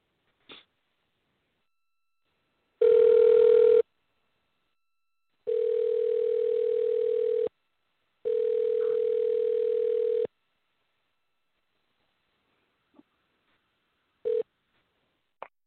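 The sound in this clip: A telephone line gives a steady dial tone in three separate bursts, one short and two longer, with faint clicks and brief tone blips before and after.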